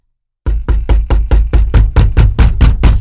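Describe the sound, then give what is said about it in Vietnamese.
Urgent knocking on a door: a fast, evenly spaced run of about a dozen loud, hollow knocks that starts suddenly after a brief silence and keeps a steady hurried rhythm, with nothing else heard. “Đến nhà cô hai, nó vội vàng gõ cửa.”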